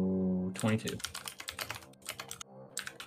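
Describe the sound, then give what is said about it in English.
Rapid typing on a computer keyboard during a tabletop role-playing game session, many quick, crisp key clicks in an uneven flurry, with a brief voice near the start. “You're doing a lot of typing, boy.”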